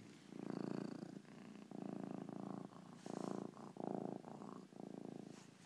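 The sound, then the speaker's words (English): A cat purring softly, a low, steady rumble that swells and eases in a regular rhythm with each breath, with no other sounds. “the little furry things that purr”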